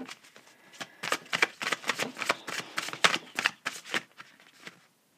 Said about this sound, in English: Open up. So I'm going to pull a card for open up.